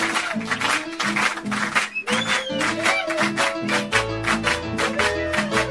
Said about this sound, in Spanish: Hacer palmas. ¡A ver las palmas!